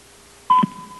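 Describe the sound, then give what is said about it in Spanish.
Radio time signal tone from an atomic clock marking the exact hour: one steady, clear mid-pitched beep starts about halfway through and holds unbroken to the end, loud over quiet background. “está en el reloj atómico que tenemos nosotros, la hora mundial, exactita para que ustedes puedan colocar. Al oír el tono serán las 6:32:10.”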